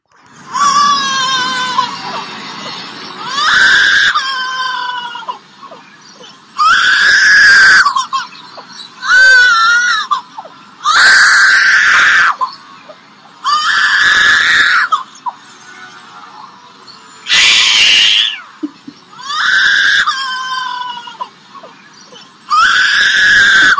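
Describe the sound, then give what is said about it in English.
A baby wails and cries in many loud, high-pitched bursts, each separated by short gasping pauses, continuing throughout with no other sounds. “By Chris's face, I can tell that he's probably ready for me to stop the wailing baby that isn't his baby.”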